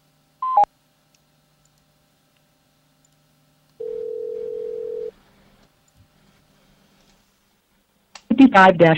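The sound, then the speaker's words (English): Telephone tones on a call: a brief key-press tone, then silence, then a longer steady tone lasting about a second, followed after another pause by a recorded voice. “We're sorry, the number you dialed is invalid.”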